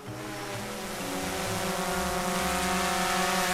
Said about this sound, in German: kein Wespenschwarm, sondern eine Drohne hören wir hier. Diese dient als Ausbruchshilfe für Häftlinge.